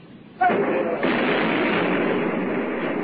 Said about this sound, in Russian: ведем огневой бой. Веду огневой бой.